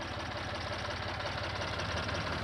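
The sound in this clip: A tractor engine idles in a steady, continuous low rumble with a faint knocking texture. It holds an even loudness throughout, with no voices.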